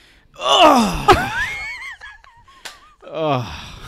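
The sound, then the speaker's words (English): A person makes a string of strained vocal noises while sitting down: a breathy gasp swelling into a long groaning wheeze, a couple of sharp knocks, then another drawn-out groan at the end. “I make a lot of noise sitting down.”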